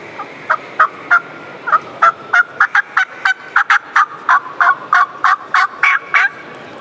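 Yelps and cuts on a hand-worked turkey call used for public-land turkey hunting: many short, sharp, raspy notes, a few spaced at first, then a fast, steady, fairly loud run heard alone.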